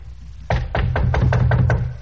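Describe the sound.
Knocking on a hotel room door at midnight, a quick, evenly spaced run of several firm knocks with a dull, hollow thud, steady in loudness throughout.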